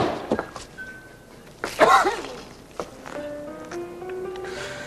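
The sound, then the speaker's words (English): A hinged wooden bar top slammed down on a hand gives one loud, sharp thunk midway, set among softer knocks, with faint tonal sounds afterward. “Porter slams the hinged bar top down on Michael's hand.”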